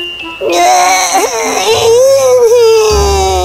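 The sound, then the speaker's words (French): A baby crying, a loud, sustained wail with a wavering, rising and falling pitch and brief catches, lasting through the whole clip. “bébé Léa se mit soudain à pleurer.”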